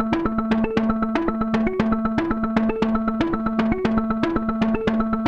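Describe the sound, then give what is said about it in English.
A sequenced synth line from the Arturia Buchla Easel soft synth plugin plays bright, plucky repeating notes in a steady, quick rhythm. The pattern alternates between a couple of nearby pitches and loops continuously. “this is a soft synth. This is a plugin that I bought it that day. It's by Arturia. It's their Buchla Easel plugin.”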